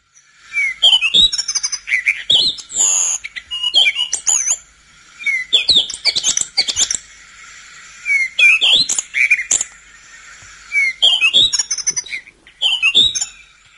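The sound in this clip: A Cape robin-chat sings in the morning, delivering many clear, rich whistled phrases with quick chirps and slurred notes. The phrases come in repeated bursts separated by short pauses.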